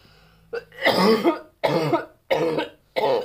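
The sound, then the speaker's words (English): A person coughs after smoking a cannabis blunt, producing a run of several loud, harsh, rasping coughs, each a separate burst with short pauses between, and no talk. “Cough break, one moment.”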